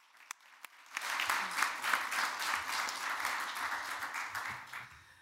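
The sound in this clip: Audience applause welcoming a speaker, with two sharp isolated claps before a full round of clapping swells up and continues, easing slightly near the end.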